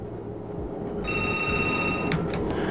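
A telephone rings for the next incoming caller: after a stretch of faint background hiss, one ring burst of steady, high electronic tones lasts about a second and ends in a short click.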